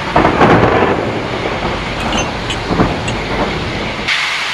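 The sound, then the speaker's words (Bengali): Heavy rain falls with thunder, making a loud, dense and steady wash of noise with deep low rumbling throughout and no voices. “ও, আজ কিন্তু বেশ জোরেই বৃষ্টি পড়ছে।”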